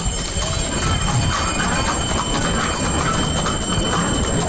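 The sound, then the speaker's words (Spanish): Hooves and harness bells of two mules drawing the Sin Pecado cart make a dense, steady rumble with a constant bright jingle on top, sustained without pause at a fairly loud level throughout. “no sé si lo escucháis, a los cascabeles de los mulos, ¿eh? Son dos mulos los que llevan la carreta del Sin Pecado”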